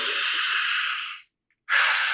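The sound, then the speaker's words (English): A big breath made of two long, airy rushes of breathing separated by a brief silent gap. Both rushes are loud and hissy, and the first fades out gradually before the pause. “And even just as you took that big breath,”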